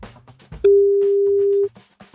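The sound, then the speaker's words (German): A ringback tone from an outgoing telephone call: a single steady mid-pitched tone lasts about one second and stands out loud and clear. Faint low sounds come before and after it. “Raus geht der Call.”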